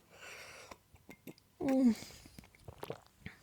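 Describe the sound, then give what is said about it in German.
A quick sip and swallow of a drink: one brief, fuller gulp in the middle, with soft mouth and lip noises before and after. “Ich muss mal kurz nebenbei einen Schluck trinken.”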